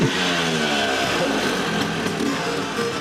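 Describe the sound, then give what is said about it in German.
An old two-stroke Vespa scooter engine rattles and revs in a steady, continuous drone, its buzzy harmonic tone holding fairly even throughout. “So wie das Knattern der alten Zweitaktmotoren.”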